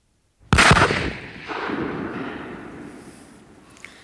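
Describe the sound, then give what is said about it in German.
A single loud gunshot: a sharp, explosive crack that decays into a long, rumbling tail lasting several seconds, with no voices. “verflucht will ich sein, ich schieße.”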